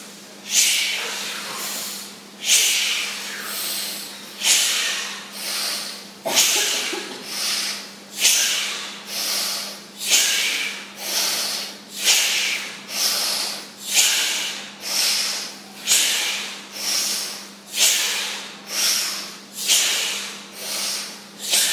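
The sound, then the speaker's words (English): Rapid, forceful breathing during a deep breathing exercise: many loud rushing breaths in a steady, quick rhythm of roughly one per second, each a hissing surge that fades before the next. “The goal is to really breathe, even get the heart rate up a little bit, and then we'll calm it right down after. Oxygenate here. Inhale up.”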